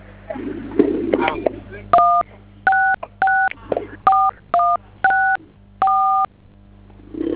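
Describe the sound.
Telephone keypad tones sound as digits are pressed: eight crisp, short beeps in an irregular sequence, each clean and of similar loudness, after a stretch of muffled noise at the start.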